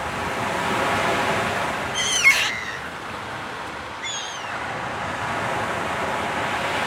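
Sea waves at a beach beside a pier, a continuous broad rushing surf at steady moderate loudness, with two brief high chirps standing out near the middle.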